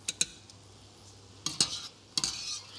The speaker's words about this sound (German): Die werden noch kurz in dieser Soße mit angeschwenkt. Genau. Die letzten paar Sekunden ziehen wir in der Soße.